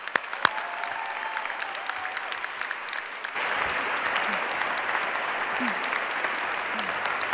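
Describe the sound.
Audience applause welcoming a speaker to an event about sexual assault and mutual support: dense, steady clapping from a crowd that swells a little louder about halfway through and keeps going to the end.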